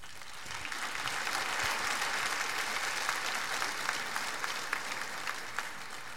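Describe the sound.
Audience applause welcoming a couple: a dense, steady wash of many hands clapping that holds evenly throughout at a moderate level, with a few sharper individual claps standing out toward the end.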